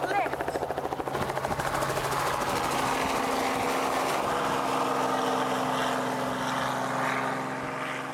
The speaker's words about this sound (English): To get into the air, you have to overcome the pull of gravity. To do that, the rotors send a huge amount of air rushing downwards.